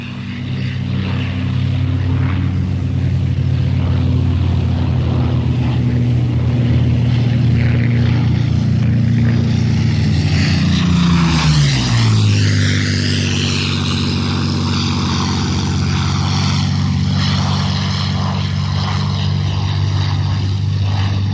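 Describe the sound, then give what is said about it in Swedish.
Supermarine Spitfire Mark II propeller aircraft engine roars loud and steady, its deep droning pitch dropping sharply partway through as the plane passes, then carrying on as a lower, rougher drone. “Vi får nu höra Supermarine Spitfire Mark II.”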